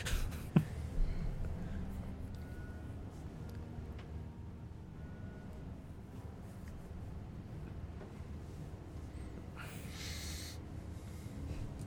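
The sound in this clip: Pen scratching on paper as notes are written down to track ball bearings after combat in a game, a faint, steady scrawl that runs throughout with a few slightly louder strokes near the start.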